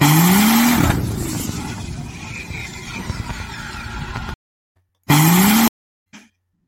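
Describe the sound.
A high-horsepower racing engine roars through a dyno pull on a block previously run past 3,000 horsepower. A loud rising rev gives way to a sustained rough roar that cuts off abruptly, then a brief rising rev repeats.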